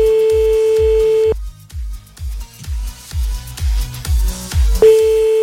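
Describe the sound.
A telephone line tone sounds as a call is placed: a steady, even-pitched tone that cuts off, then returns near the end, with a thumping rhythmic beat running underneath.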